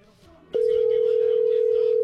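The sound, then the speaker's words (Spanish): A single steady telephone tone sounds while someone places a call to a boss. It starts abruptly after a short, faint stretch, holds one even pitch at constant loudness for about a second and a half, then cuts off. “A ver, márcale. Le estamos marcando al jefe, a ver si contesta.”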